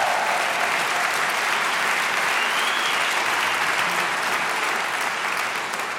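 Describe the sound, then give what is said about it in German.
Sustained audience applause fills the hall after an orchestra concert by the WDR Funkhausorchester, dense and steady clapping throughout that eases slightly at the very end. “Bitte nochmal einen Riesenapplaus für diese fantastischen Abend, meine Damen und Herren.”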